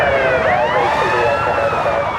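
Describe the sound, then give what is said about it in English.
Police sirens wail during a Houston police chase, several overlapping tones sweeping up and down continuously and loudly for the whole stretch without a break. “Suddenly, a wall of screaming sirens and flashing lights appears in the distance.”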